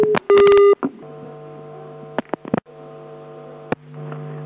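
Telephone keypad tones as a number is dialed: a few short touch-tone beeps, then scattered sharp clicks, all over a steady electrical hum with no talking.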